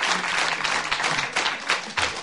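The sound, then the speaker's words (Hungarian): Applause from a radio cabaret stage audience greeting a performer: brief, lively clapping that swells and dips slightly in loudness throughout the short stretch. “Zúg a taps”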